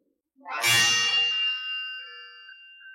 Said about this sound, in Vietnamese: Vạn kiếm cùng phát ra âm thanh chói tai.